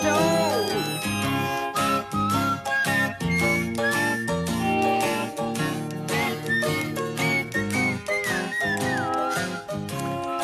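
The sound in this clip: A whistled melody rides over full band backing in a pop song, the bright tune gliding between held notes against a steady rhythmic beat for the whole stretch.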